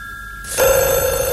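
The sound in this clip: A telephone bell starts ringing abruptly after a faint tone and keeps going as one loud, continuous, bright ring until the end, with no talk over it.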